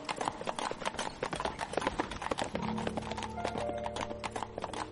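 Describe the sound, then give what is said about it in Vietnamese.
Horse-drawn carriage with hooves clip-clopping in a brisk, steady rhythm of many sharp strikes; a low sustained drone joins halfway through beneath the hoofbeats. “Đến buổi sáng giờ thìn, xe ngựa đến ngã ba đường bên ngoài núi.”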